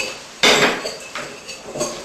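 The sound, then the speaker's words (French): Spoon scraping a bowl while sugar and almond are mixed together, with three gritty scraping strokes at a steady pace, each one loud at first and then trailing off. “Donc, une fois qu'on a fini, donc on va commencer par mélanger le sucre et l'amande.”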